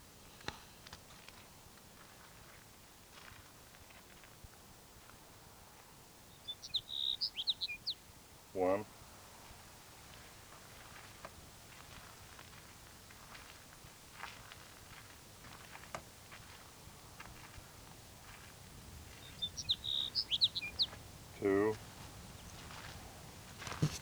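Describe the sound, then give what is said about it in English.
Faint sage sparrow song: two short, high, tinkling phrases separated by a long pause, over a low steady background hiss. “Sage Sparrow number 3.”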